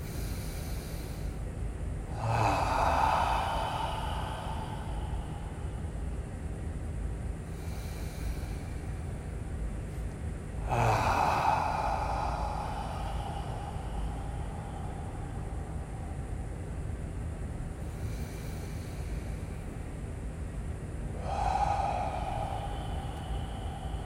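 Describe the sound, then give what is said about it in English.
Slow, deep breathing during a guided meditation: three long, loud breaths spaced several seconds apart, fainter airy breaths between them, and a low steady hum underneath, with no talking. “Let's with each breath, just become more aware, one step farther outside of ourselves. Deep breath in.”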